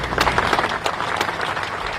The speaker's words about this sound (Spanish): Son los aplausos con los que acaba de terminar el minuto de silencio en la concentración en Bilbao, concentración de condena por el asesinato de una niña de 13 años a manos de su padre